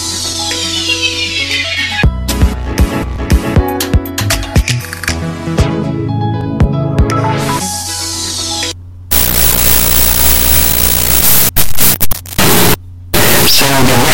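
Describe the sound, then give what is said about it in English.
A glitchy electronic sound piece with random glitching: loud, dense static and crackling textures broken by abrupt cuts, stutters and sudden dropouts, with harsher noise in the second half. “And some random glitching coming in after there.”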